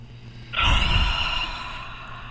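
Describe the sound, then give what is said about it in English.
A deep inhale drawn in through the nose during a guided breathing exercise. The airy rush starts abruptly, peaks quickly, then fades slowly and steadily over about two seconds, with no talking. “3, 2, 1, all the way in through the nose.”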